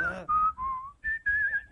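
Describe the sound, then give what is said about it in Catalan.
Whistling of a short tune, several clear sustained notes in a few phrases that shift up and down in pitch, moderately loud, preceded by a brief vocal sound. “Pots xiular-vos en francès?”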